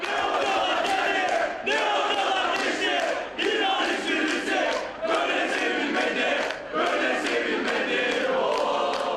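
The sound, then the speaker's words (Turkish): Football fans chanting for their Italian coach in a dense crowd at an airport: loud, continuous shouting in rhythmic phrases, broken by a few brief dips. “Taraftarlar da İtalyan teknik direktör adına sık sık tezahüratlarda bulundu.”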